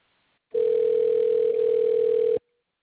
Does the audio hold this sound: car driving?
no